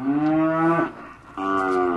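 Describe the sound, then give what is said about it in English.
Cattle mooing at a feedlot on the Mexican side of the border: two deep, drawn-out moos, the first just under a second long, then a short pause before the second begins and holds to the end. “Ochoa is a dual citizen who imports cattle into Douglas, Arizona, and he runs this feedlot on the Mexican side of the border.”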